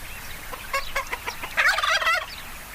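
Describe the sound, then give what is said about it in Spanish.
A small flock of nine hens and a rooster clucks in a rapid run of short, sharp calls, followed by a louder, longer warbling call. “Ahora poseo 9 gallinas y un gallo, y mi alma está perturbada.”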